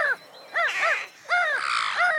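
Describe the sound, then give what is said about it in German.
A flock of crows flying toward a town, cawing in harsh, hoarse bursts, several calls overlapping with short gaps between the groups. “Dann schloss sie sich einem Schwarm Krähen an, der zur Stadt flog.”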